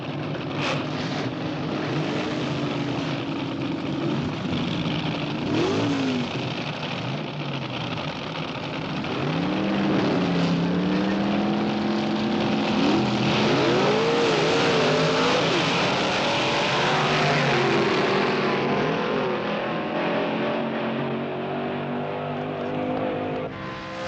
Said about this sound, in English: So buckle up, strap in, put it in first, rev it up till the valves float, drop the clutch.